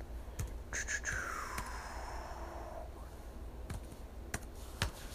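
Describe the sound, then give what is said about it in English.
Keys tapped on a computer keyboard, a few faint, sparse clicks spaced irregularly, with no talk. “Let's type it in.”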